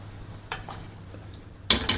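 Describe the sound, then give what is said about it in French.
Metal whisk striking a bowl as eggs are beaten in a kitchen during baking with chocolate and butter. Sparse, light clinks give way to two louder, sharp, ringing taps near the end. “On est dans la cuisine en train de battre les œufs.”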